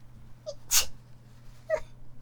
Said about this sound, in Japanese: やべ、くしゃみでしょ